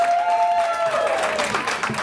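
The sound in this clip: A game show studio audience applauds as a contestant is introduced. Brisk, continuous clapping runs throughout at a loud level while a sustained tone holds and then glides lower partway through.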